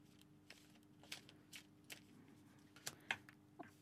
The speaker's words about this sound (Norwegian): så jeg kan jo se, trekke tre kort og se hva kortene sier. Ehm, da tar jeg tre kort på O.